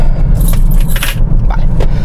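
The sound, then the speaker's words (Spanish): Keys jangle as they are put away, a continuous bright metallic rattle with a few louder clusters over about two seconds, heard above a steady low rumble with no talk. “voy a guardar las llaves que las tengo aquí”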